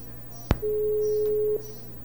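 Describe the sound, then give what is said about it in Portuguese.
A telephone is redialed after a dropped call: a sharp click, then a steady electronic tone at unchanging pitch that lasts about a second and stops, leaving a low hum. “A ligação caiu, caramba. Não é possível. Vamos chamar de novo.”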